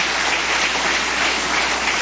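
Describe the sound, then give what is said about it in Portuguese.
A church audience claps during a worship service. The clapping is an even, continuous patter with no separate claps standing out, much like steady rain. “Só aqueles que têm esta paz pode bater palmas, dar glórias.”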